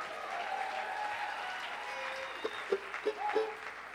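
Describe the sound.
Audience applause welcoming a pair of performers on stage, fairly faint steady clapping that swells with a few sharper claps toward the end, and a voice speaks briefly.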